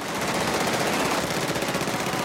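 Rapid Tommy gun machine-gun fire in a film scene: a dense, unbroken stream of shots rattles loudly and steadily from start to finish.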